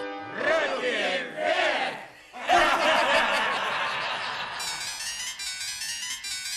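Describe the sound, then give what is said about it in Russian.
A crowd cheers and shouts to welcome a yacht captain, with loud rolling bursts of cheering. A bright, steady high-pitched ringing tone joins in over the second half. “смотрите, как много народу нас встречает. О, это мои родственники! Эй, ребята! Поприветствуем нашего славного капитана.”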